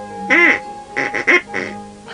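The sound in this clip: Duck quacking: several loud, nasal, raspy quacks in a short, uneven series, some closely paired and others separated by brief pauses, heard alone without talk.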